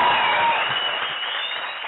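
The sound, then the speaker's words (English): A short round of applause, a dense, steady patter of clapping that sounds slightly muffled and eases off a little over about two seconds. “I got to give myself a round of applause.”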